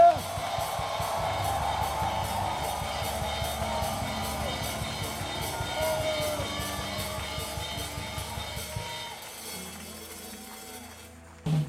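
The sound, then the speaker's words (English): A church audience shouts, whoops and cheers loudly and steadily amid a dense wash of sound, easing off near the end. “Shout yes! Shout yes! Shout yes! Clap your hands, all ye people, and shout!”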